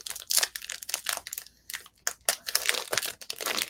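Crinkling and tearing of basketball trading card packs being ripped open, many sharp crackly bursts of foil wrapper noise with short pauses between them, fairly faint and with no talking.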